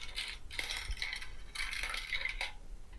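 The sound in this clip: A green marble rolls along a Gravity Trax marble run after being released by a press, giving quiet bursts of rattling, clinking plastic noise that come and go in a few waves.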